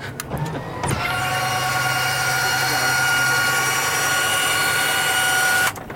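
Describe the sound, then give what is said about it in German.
An F-16 fighter jet canopy opening: a few clicks, then a steady electric motor whine with sustained humming tones for about five seconds, which cuts off abruptly. “So, I will open the canopy of the F-16.”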